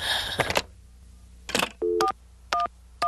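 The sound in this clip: Telephone keypad dialing tones: after a few soft clicks and rustles, three short, clear dual-tone beeps sound at an even pace near the end, quiet and with no voices.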